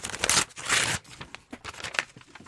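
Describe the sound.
Paper tearing as a numbered paper package is ripped open: two loud, crackly rips in the first second, followed by several softer rustles and crinkles.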